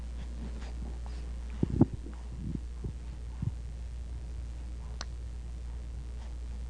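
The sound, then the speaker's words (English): A single sharp mouth click, made with the lips pulled to one side, snaps out clearly above a low steady hum, with a few softer ticks scattered around it. “He took his two lips to the side and made a little mouth click.”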